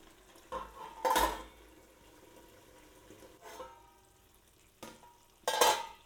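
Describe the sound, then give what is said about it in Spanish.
Potatoes fry in a wok while being stirred, producing a few bursts of metallic scraping. Two are loud and others softer, heard over a quiet, steady sizzle, with no talking. “Ya he ido removiendo estas patatas de vez en cuando.”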